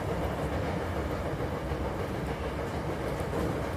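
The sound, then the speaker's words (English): A train rides the rails in Osaka, giving a steady, dense rumble and rattle that holds an even loudness throughout, with no voices. “I'm riding the rails here in Osaka”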